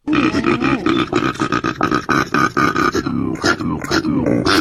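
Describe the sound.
A koala's bellowing call: a continuous run of loud, deep, pig-like grunts and snorts with rasping breaths between pulses.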